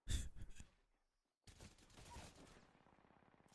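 Charge rifle gunfire in a video game: a short, loud burst of sharp, crackling shots opens, then cuts to silence before rougher game noise returns.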